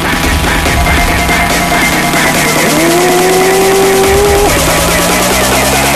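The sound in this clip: Car engines roar loudly in a dense, continuous rumble. Midway one engine note climbs steadily in pitch and then cuts off, while the roar carries on.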